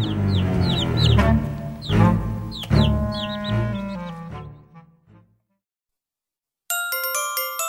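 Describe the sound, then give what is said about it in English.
Small chicks peep in many rapid, high chirps as eggs crack with a few sharp snaps; the peeping fades to silence, then a bright electronic chime begins. “The small eggs crack. Peep, peep, say the small chicks.”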